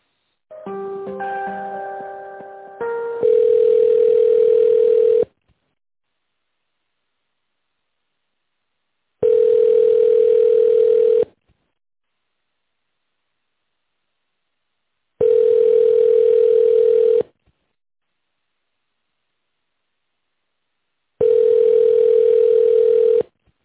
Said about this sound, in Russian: Секунду, я соединяю вас с коммерческим директором.